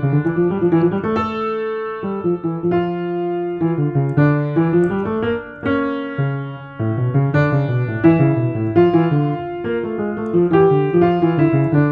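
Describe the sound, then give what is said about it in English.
A piano plays two fugue subjects at the same time, one in each hand, weaving two melodic lines of distinct ringing notes at a moderate pace, with a brief dip partway through and no talking. “if I were to play the subject of the Art of Fugue at the same time as the subject of this canon at the 12th, it would sound like this.”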